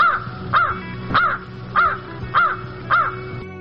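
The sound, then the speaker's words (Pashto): A crow gives six harsh, hoarse caws, loud and evenly spaced in a steady rhythm, with nothing else heard between them. “کارغه پتنګ درک انگازې خورې کړې، کاخ کاخ کاخ.”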